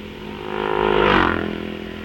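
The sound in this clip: A racing motorcycle roars past the start line during a race, changing gear as it goes. The engine swells to a loud peak midway and then fades over about two seconds.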